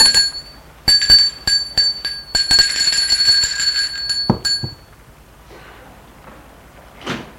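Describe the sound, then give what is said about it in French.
A bell rings at the door of a house: many bright, bell-like chimes and clinks in quick succession, loud for several seconds, followed by quieter rustling and one last short knock-like sound. “elle va vers la maison. Elle sonne.”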